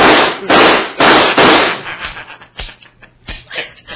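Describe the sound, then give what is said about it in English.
Gunshots in a radio drama: a quick run of loud, sharp blasts at the start, followed by a scatter of fainter, shorter pops. “I've shot you. Evidently, you missed. Well, I won't miss this time.”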